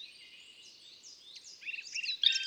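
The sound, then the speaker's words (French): Bird calls attributed to a black woodpecker: thin, high chirps and quick trills run throughout and grow louder and busier toward the end, with a brief sharp note near the close. “Cette sorte de sirène, c'est le chant du pic noir. Ça ressemble un peu au chant du pic vert, mais en plus lent.”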